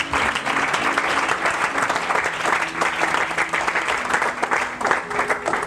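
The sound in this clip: A church audience applauds during a worship service, a thick, continuous wash of many hands clapping at once. The clapping stays strong and steady for the whole stretch, with slight ripples in loudness.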